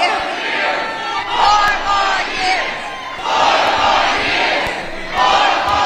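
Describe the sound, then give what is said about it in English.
A rally crowd chants "four more years" in loud, rhythmic swells that rise and fall several times, with many voices shouting together. “Four more years, they chanted at that rally afterwards.”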